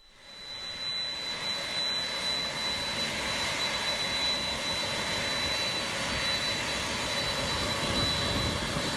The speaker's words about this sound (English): sorry about the noise there. It's coming in. It's rolling toward the gate. That's a 767